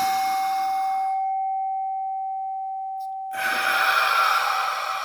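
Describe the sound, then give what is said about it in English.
A small singing bowl rings with a pure, steady tone and a faint higher overtone, slowly fading, during a breathing exercise. Breathy noise surrounds it, and a loud exhale follows. “So I'm going to use my gong today, my little bowl, music bowl kind of thing.”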